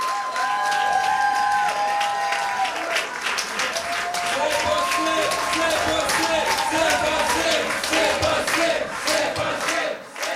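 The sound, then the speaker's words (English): Québec solidaire supporters cheer at the party's campaign headquarters in Taschereau, Quebec City, during a provincial election campaign. Sustained applause, whoops and cheering from a crowd continue throughout, with voices chanting and talking within the din. “That's the sound of some supporters at their campaign headquarters for Québec solidaire in Taschereau in Quebec City.”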